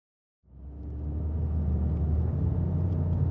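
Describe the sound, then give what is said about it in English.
A car drives through a neighborhood near downtown in a small town. A deep, steady engine and road rumble starts abruptly after a moment of silence and then holds an even level. “We're driving through a neighborhood near downtown.”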